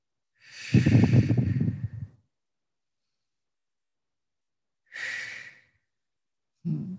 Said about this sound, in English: So take a few slow, deep breaths.